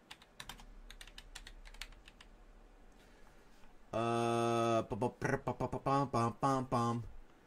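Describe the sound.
Typing on a computer keyboard gives a quick, uneven run of light key clicks, then a voice starts talking.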